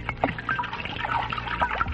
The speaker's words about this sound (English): Here, I'll pour you out a tablespoon.